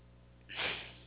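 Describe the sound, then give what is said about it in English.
A single deep breath, a quiet lead-in swelling into a sharp, airy intake that peaks and then tapers away, fairly faint and alone. “Wow, I just had to take a deep breath myself.”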